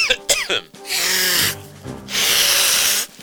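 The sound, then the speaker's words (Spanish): A person with a heavy cold blows their nose in two long, loud, rushing blasts, the second longer than the first, after a few short sniffs and clicks at the start. “¿Por qué no te suenan los mocos en el baño? Maleducado.”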